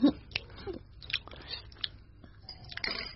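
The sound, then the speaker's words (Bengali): Chewing and biting while someone eats white rice mixed by hand with mutton curry, with raw onion and green chili on the side: soft, irregular crunches and mouth sounds over a quiet background. “ঝরঝরে সাদা ভাত আর mutton কষা মেখে মেখে খাচ্ছে পরী, খুব তৃপ্তি করে খাচ্ছে”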